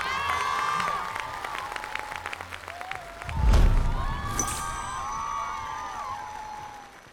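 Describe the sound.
Audience applause at a televised dance competition, rising into a loud swell around the middle over steady music, then easing back while the music carries on.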